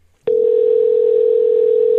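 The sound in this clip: A telephone dial tone is heard on a call to a shoe store. After a sharp click, a single steady, loud tone holds at an unchanging pitch to the end.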